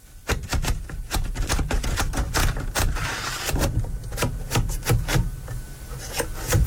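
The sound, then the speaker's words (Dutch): A very old typewriter, kept since the 1950s, typing in a rapid, uneven stream of many sharp mechanical key clacks with small pauses, loud and alone with no talk. “Ja, dat is het geluid uit mijn jeugd. Een typemachine.”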